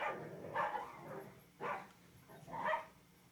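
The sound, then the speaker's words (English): A dog barks at the dog next door, giving three spaced, rather faint barks separated by short pauses. “That's my dog trying to exercise his authority to the dog next door. See, that was the sound of war.”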